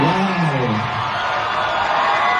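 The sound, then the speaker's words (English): A screaming, cheering crowd fills Marvel's Comic-Con panel as a new Ghost Rider casting is announced, a continuous dense roar of excited voices at a steady, loud level. “During Marvel's Comic-Con panel, Ryan Gosling was officially announced as Johnny Blaze, a.k.a. Ghost Rider. He addressed the screaming crowd about the new role.”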